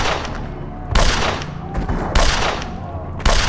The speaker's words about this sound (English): Frank held the peacemaker low against his waist, tight to his body to give him added support, and began to walk toward Swan's hiding spot, firing as he went.